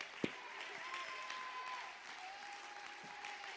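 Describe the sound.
Church audience clapping their hands during a sermon, a steady, fairly faint wash of applause with a held tone running underneath.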